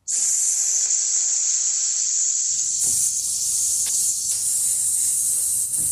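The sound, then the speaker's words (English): A voice makes a long, steady hissing 'sss' like air escaping a tire, the qigong healing sound for the metal element, tied to the lungs and large intestine. It is loud and unbroken for almost six seconds, with a slight shift partway through. “like S's strung together, like air going out of a tire,”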